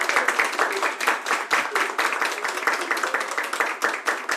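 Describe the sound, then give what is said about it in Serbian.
Applause from a live audience greeting a performer on stage, dense and loud clapping with a lively, pulsing texture that stays steady throughout. “Hvala, hvala. Osjetio sam po aplauzu da je nešto neštima ovdje.”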